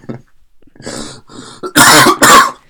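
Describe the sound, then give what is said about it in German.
A harsh, phlegmy smoker's cough. It starts as a few rough, rasping throat-clearing bursts and builds to two loud, explosive coughs at the end, with no speech. “oh mein Gott, was ist das für ein Raucherhusten?”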